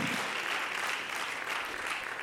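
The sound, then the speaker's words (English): Congregation clapping hands in praise during a church service, a soft, dense patter of many hands that stays even throughout. “Let's clap our hands and lift our voice and magnify him.”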